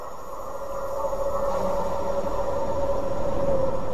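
A passenger train carriage heard from outside in a train simulator video game: a steady rolling rumble with a sustained mid-pitched tonal hum that swells during the first second, then holds even, with no voices.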